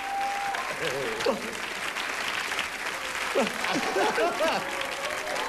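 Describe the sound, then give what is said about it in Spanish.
Loud, sustained audience applause at a live stage show, dense and steady from start to finish, with voices calling out over the clapping. “El aplauso fuerte a Polo, Polo”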